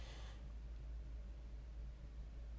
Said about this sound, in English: If I stop for a moment, I can hear the sound, the hum of the heater, the furnace.